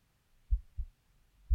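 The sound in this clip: Pounding heartbeat: low, muffled thumps, a quick double beat followed by a single one, faint and alone.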